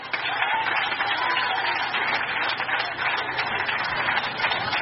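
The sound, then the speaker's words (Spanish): A church audience claps together in a steady, dense wash of applause, loud and continuous throughout, with voices mixed into it. “Aplauda con vida.”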